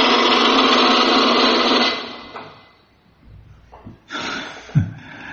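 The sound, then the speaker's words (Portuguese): A conch shell is blown in one sustained, buzzy horn note of about two seconds that fades away, followed by a few softer, brief breathy sounds. “Você tinha que tocar o búzio. Ah, era, era para ter lembrado antes de, de, você tocar.”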